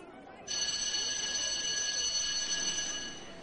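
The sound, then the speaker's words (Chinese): A school bell rings for the start of class: one bright, sustained metallic ring lasting about two and a half seconds, steady in pitch before it tapers off, with no talking. “上课铃响了”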